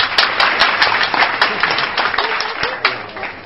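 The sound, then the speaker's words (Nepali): An audience claps at the opening of a poultry farm, a lively burst of many hands with some distinct, sharp individual claps standing out from the steady wash. “Tali.”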